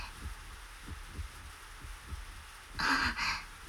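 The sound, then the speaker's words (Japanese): A pounding heartbeat after a first kiss, heard as a steady run of soft, muffled low thumps, with a brief breathy hiss near the end. “心臓がドキドキして、体がふわふわして、”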